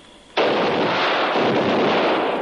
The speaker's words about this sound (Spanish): hombre dispara a otro